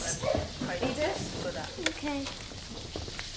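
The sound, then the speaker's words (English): Food frying while dinner is cooked, a continuous crackling sizzle with small irregular spits and stirring sounds. “Later, Fiona's cooking dinner.”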